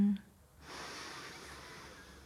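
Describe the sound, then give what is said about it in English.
A long, deep breath drawn in slowly and softly: one steady, airy hiss lasting nearly two seconds, following a brief quiet gap. “and slowly breathe out. One more long deep breath in”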